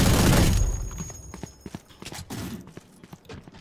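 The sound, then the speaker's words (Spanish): Video game gunfire shoots through a wall: a loud, dense burst at the start, then many short, sharp cracks in an irregular rhythm. “Nos dispara a través de la pared”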